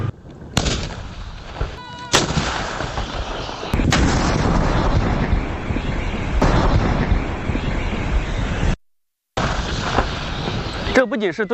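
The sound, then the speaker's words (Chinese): Several heavy artillery blasts boom out during a live-fire direct-fire assessment by a brigade of the Chinese Army's 71st Group Army. Each shot is a sharp crack followed by a long roaring rumble. “近日，陆军第71集团军某旅组织实弹射击考核，检验炮兵分队在复杂环境下的火力打击能力。”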